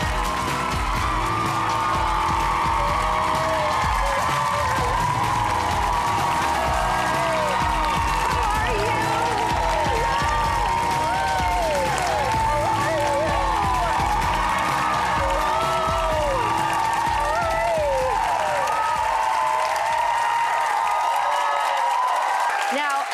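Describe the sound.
Studio audience applause and cheering as Drew Barrymore is welcomed onto a talk show. A dense, loud, steady roar of clapping mixes with whooping, shouting voices and lasts over twenty seconds.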